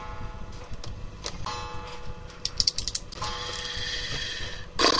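A wind-up clock that slows when it needs winding ticks quietly and steadily, its gears clicking under a faint, lingering ringing tone.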